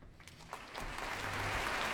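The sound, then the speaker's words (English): Concert audience applauding the conductor after an orchestral performance, a dense wash of clapping that starts sparse and swells into steady, loud applause. “That applause is for Myung-Wong Chung”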